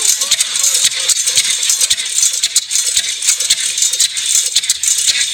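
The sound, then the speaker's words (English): A hit-and-miss engine runs slowly at about 500 RPM and sounds as if it is struggling, making a steady, rapid rattle of metallic ticks over a constant hiss. “Actually, can I play a little bit of a sound of a hit and miss engine?”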